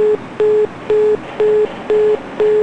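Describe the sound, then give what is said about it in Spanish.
Telephone busy tone after a call is cut off: a loud, steady run of short beeps at one mid pitch, evenly spaced at about two per second, with no other sound. “nos cortaron la llamada”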